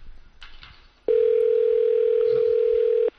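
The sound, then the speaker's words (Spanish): Ringback tone of an outgoing phone call: a single loud, steady tone lasting about two seconds, following brief faint murmuring. “Estás volviendo a llamar a Sharapova.”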